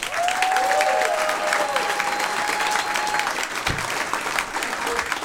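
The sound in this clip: A comedy club audience applauds as a comedian is introduced, with steady, sustained clapping and a whistle riding over the first few seconds.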